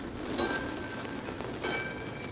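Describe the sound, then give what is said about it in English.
A fast train arriving at a station, heard as a faint, steady rolling rumble with thin, high whining tones drawn out above it. “rode the blind baggage of a fast train to Tacoma and rode it right into the Union Station.”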